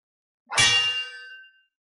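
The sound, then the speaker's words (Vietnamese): A ringing saber sound effect, the blade clashing against a wooden staff: one bright metallic clang that rings on and fades out over about a second. “Một tiếng đao ngâm vang vọng khắp thiên địa”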